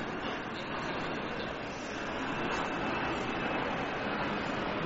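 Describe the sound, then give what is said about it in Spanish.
An airplane flying overhead gives a steady, broad roar that stays fairly even in loudness and swells slightly, heard alone with no voices. “Parece que el avión intenta contestar esa pregunta.”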